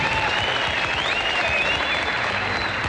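Audience applause at the Grand Ole Opry welcomes a guest star, a continuous, even burst of clapping from the crowd.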